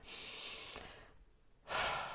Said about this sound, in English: Like, this deep breath can help to release tension and frustration.